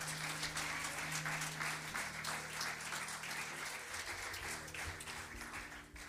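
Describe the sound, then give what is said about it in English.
Audience applause welcoming a guest speaker at a church service, a steady, moderately faint patter of many people clapping that continues evenly and eases slightly at the close. “Would you put your hands together and make our friend welcome tonight?”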